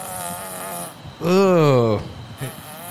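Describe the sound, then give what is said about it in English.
A played fart sound effect: one loud, buzzy, tonal blast lasting under a second, its pitch sliding steadily downward before it cuts off. “You want me to play the fart? Way. Yeah, play the fart. It's gnarly, dude.”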